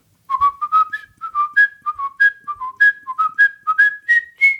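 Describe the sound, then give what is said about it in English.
A person whistles a little melody to call a pet cat: many quick, bright notes in a bouncing, repeated phrase that edges upward toward the end, clear and alone. “always comes to that little whistled melody.”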